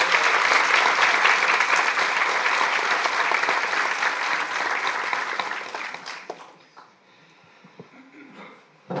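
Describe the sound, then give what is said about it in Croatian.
Audience applause rings out at a church monograph presentation evening tied to a parish's 150th anniversary, welcoming the parish priest. Dense, loud clapping holds steady for about six seconds, then drops away quickly, leaving a quiet room with faint stray sounds. “Stoga pozdravite našeg župnika snažnim i zaslužnim pljeskom.”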